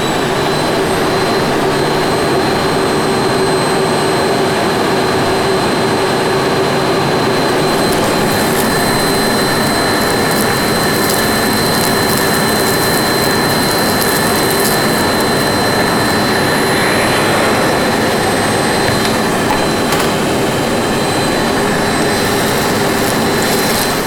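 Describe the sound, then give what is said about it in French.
A vacuum cleaner runs continuously, giving a loud, steady roar with a sustained high whine that holds at the same level throughout, with no voices. “Donc, ils vont enregistrer le bruit d'aspirateur, quand même. Vous pouvez laisser allumer.”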